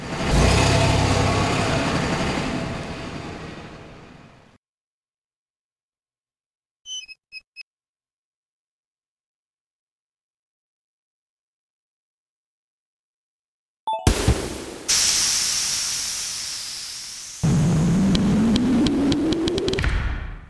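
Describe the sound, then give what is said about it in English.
A bus engine in the video game Stardew Valley rumbles and accelerates, its tone sweeping upward. Before it comes a burst of noise, then silence broken by a few quick electronic beeps. “Traveling to Stardew Valley bus stop. Stardew Valley 0.5 miles away.”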